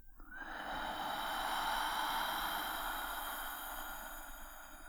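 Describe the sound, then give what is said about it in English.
A long, steady breath drawn during a guided breathing exercise: one continuous airy rush at even loudness for several seconds, with no voice. “Breathe in. Hold it. And breathe out.”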